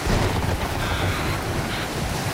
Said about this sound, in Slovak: Vietor driapol plachty a vlny ako veľké hory sa prevaľovali cez palubu.